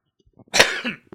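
A cough caused by a tickle in the throat: one loud, harsh burst, then a shorter cough at the end, with faint breathy sounds just before.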